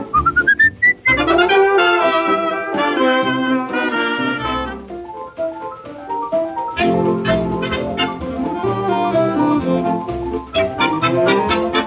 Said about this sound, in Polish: Bo ja lubię gwizdać, to przyjemność dzika, w ustach mieć słowika.